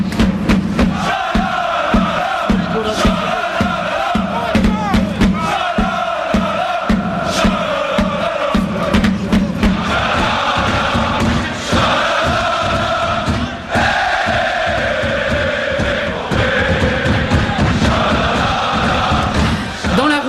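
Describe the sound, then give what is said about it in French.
Borussia Dortmund supporters of the Yellow Wall singing in the stadium during a Champions League match against Monaco: loud, sustained massed chanting from a huge crowd, with rhythmic accents running through the whole stretch. “Borussia Dortmund reçoit donc Monaco et le club allemand, lui aussi, vous l'entendez, ses supporters infatigables, son fameux mur jaune qui chante durant toute la rencontre.”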